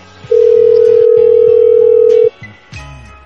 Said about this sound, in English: Does he have voicemail now? I'm trying to leave him a voicemail.